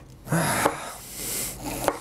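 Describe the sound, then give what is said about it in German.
A knife cuts pointed and white cabbage for coleslaw salad, making rasping, crunchy strokes with two sharp knocks on the board in between. “Das Gemüse schneiden ist halt so, ne? Steaks lassen sich irgendwie leichter schneiden als Gemüse.”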